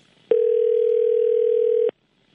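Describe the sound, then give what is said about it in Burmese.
Telephone dial tone after a call line dropped: a single steady, even tone that starts and stops abruptly, lasting under two seconds with silence on either side. “ကိုဦးစီးရသူတယ်လီဖုန်းလိုင်းကျသွားတယ်ကျွန်တော်တို့ပြီးရင်ပြန်ခေါ်လိုက်ပါမယ်”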